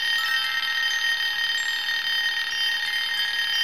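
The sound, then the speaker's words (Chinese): A telephone ringing shrilly, its high, piercing electronic trill repeating steadily and without pause. “电话又响了，铃声是那么尖锐，李军的心被着铃声带动着，扑通扑通。”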